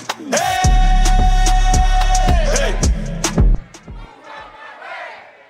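A crowd yells at a live dancehall DJ event, loud and roaring over heavy booming bass hits and a long sustained high tone, then drops away to quieter noise near the end.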